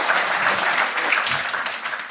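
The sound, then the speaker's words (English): Audience applause fills the whole stretch as a dense, steady wash of many hands clapping at even loudness, following an act at an evening stage event. “Ladies and gentlemen, one more round of applause for Ian White, please.”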